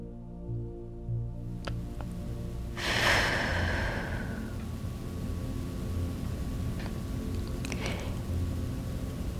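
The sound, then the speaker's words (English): A deep breath taken during a guided spiritual meditation. One long breathy rush of air swells over a steady low hum, then fades over a couple of seconds. “So I want you to take a deep breath.”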